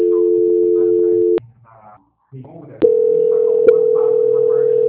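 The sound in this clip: A steady telephone tone plays during a call transfer. The continuous hum-like beep cuts out briefly with a couple of clicks, then resumes.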